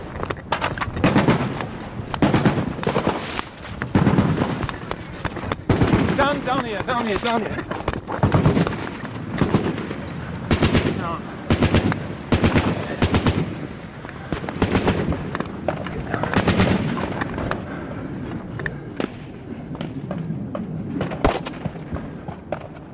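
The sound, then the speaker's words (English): Rockets fired by Sudanese government jets strike a nearby target in rebel territory under bombardment: many sharp, loud blasts and cracking bursts repeat irregularly throughout, some in rapid clusters. “The jets fired rockets at a target nearby. I don't know whether they're going to come back, but they were very, very close.”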